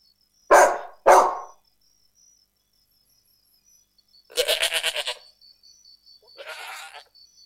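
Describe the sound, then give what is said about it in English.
A dog barks twice, short and sharp in quick succession. After a pause come two longer, wavering animal calls, the second fainter. “This is dog. ما اسم هذا الحيوان؟ هذا كلب.”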